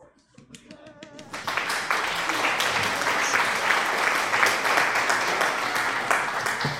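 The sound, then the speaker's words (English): Applause breaks out during an online casino slot session. After a quieter opening, dense clapping swells and then holds as a loud, steady roar of many hands until the end. “Yep, that deserves an applause.”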